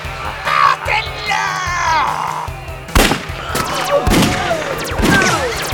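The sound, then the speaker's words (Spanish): A gunfight sound effect, with a 9 mm pistol firing and guards shooting back: shouting and yelling voices, then a few sharp, loud shots at scattered intervals. “la 9 milímetros de nuestro héroe comenzó a bañar de plomo a los hipnotizados guardias que respondieron el fuego sin pensar en cubrirse.”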